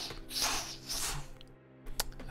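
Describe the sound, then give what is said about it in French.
Footsteps wading through water in a detective scene, faint soft sloshing splashes mixed with wet squishes and drips, followed by a sharper splash near the end. “Donc là, vous marchez dans l'eau, ça fait vraiment de.”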